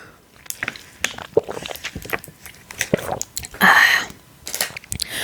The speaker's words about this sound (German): Der Strohhalm ist so abgeknickt. Hab meinen Neffe noch übrig gelassen sozusagen. Trinke ich jetzt davon einen Schluck.